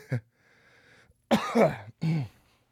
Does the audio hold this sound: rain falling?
no